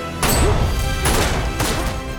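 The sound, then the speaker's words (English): Three sharp pistol gunshots in a film scene, spaced unevenly, each a loud, hard crack over a low, rumbling background. “Tree shoots and the bullets send Tombs reeling back.”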